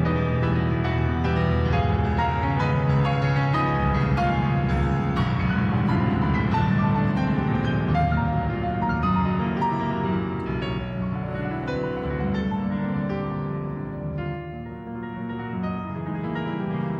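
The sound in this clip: Solo classical piano playing a notoriously difficult concert work: dense, rapid cascades of many notes ring together at a steady, full loudness, easing slightly near the end, with no voices.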